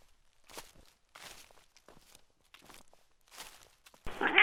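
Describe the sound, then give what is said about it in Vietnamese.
Rustling comes from bushes behind someone in a forest: several faint, irregular, crunching bursts like soft footsteps in undergrowth, then a louder burst of noise at the end. “thì có tiếng sột soạt phát ra phía sau lưng”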